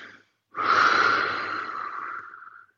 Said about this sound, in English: Take a deep breath. That helps me. Like when I'm about to get too frustrated, you know, literally